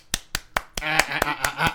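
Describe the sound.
Hands clap right up against a microphone in a steady run of sharp, loud smacks at an even pace. A voice comes in under the later claps.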